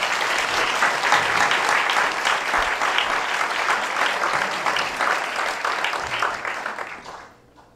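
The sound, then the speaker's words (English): Warm, sustained applause from an audience welcoming a speaker at a morning gathering; dense, even clapping holds steady for several seconds, then fades out at the end. “Now let's give him a warm welcome anyway.”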